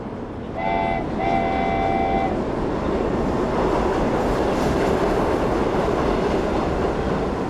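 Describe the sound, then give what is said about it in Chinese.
A train at a station sounds a two-part horn toot, a short blast and then a longer one, over steady, loud rumbling and rattling rail noise that continues to the end. “她就是走入了车站，然后开始周边的声音非常的丰富，康啷康啷的，然后车子响起”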